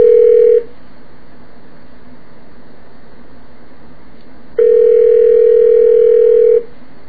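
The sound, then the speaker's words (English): A payphone dial tone sounds as a loud, steady hum, heard in two stretches, a short one and then a longer one, with a low hiss between them. “you know, I have a perfectly good payphone. Let's see if someone's there.”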